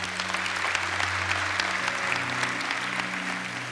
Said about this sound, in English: One more time, let's give it up for them, church.